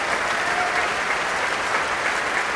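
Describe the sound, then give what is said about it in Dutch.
Enthusiastic concert audience applause after a violinist's performance of a solo violin sonata, a dense, even, unbroken roar of clapping sustained throughout. “Ja, nu hoort het, het publiek. Die is zeer enthousiast.”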